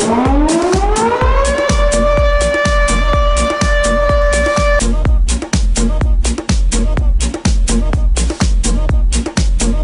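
A siren sound effect over a cumbia track climbs in pitch, holds a steady wail for a few seconds, then cuts out while the regular, punchy drum beat keeps going.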